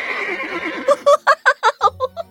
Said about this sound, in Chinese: 要出门的话，还有两匹马拉的豪华马车，